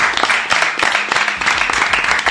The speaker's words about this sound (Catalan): Un aplaudiment per tots vosaltres.